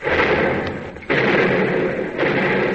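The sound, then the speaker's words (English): A battleship's number one and two turret guns fire in a few heavy, booming blasts. Each roaring discharge trails off before the next one hits. “Number one and two turrets, commence firing.”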